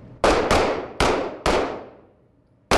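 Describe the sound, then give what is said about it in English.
Handgun shots fired by police recruits at an indoor training-center shooting range: five sharp, loud cracks at uneven intervals, each with a quick decaying tail, and the last one coming after a longer pause. “They draw their new handguns out of their holsters and wait for their cue. Shooters, be alert. Then they fire.”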